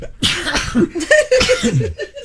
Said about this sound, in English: Bless you. The greatest plug in the history of broadcasting. Sturgis is so exciting that it's given me sneezes.